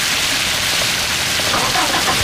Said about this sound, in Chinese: 下雨了。